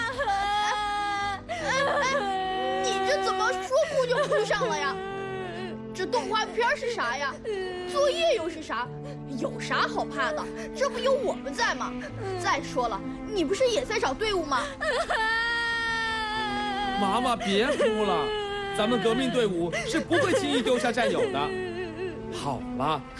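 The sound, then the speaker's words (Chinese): A young girl crying and wailing in long, high, sobbing bursts that fill the whole stretch, with speech-like voicing mixed into the cries. “你这怎么说哭就哭上了呀？”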